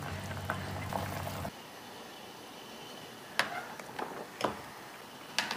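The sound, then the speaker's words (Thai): Sugar is stirred into a cooking pot of dehulled mung beans until it dissolves. A faint, steady liquid hiss runs throughout, broken by a few soft, sporadic taps of the spoon. “ได้เราจะปรุงรสด้วยน้ำตาลคนให้น้ำตาลละลายนะคะ”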